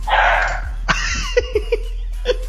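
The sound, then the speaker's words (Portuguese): A dog barks in several short, sharp, yappy bursts spaced unevenly through the second half, with a higher, softer sound just before them. “Lá vem o cachorro de Murilo.”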